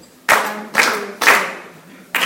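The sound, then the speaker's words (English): A group clapping hands to a beat: four loud bursts of many hands. The first three are evenly spaced, and the fourth comes after a longer gap. Each burst fades quickly. “So if we can practice, everyone can chant, can clap.”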